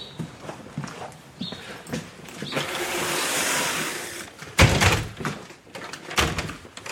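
A broken, stiff door being forced shut, with scraping, rattling and rustling throughout and a couple of heavy thumps toward the end.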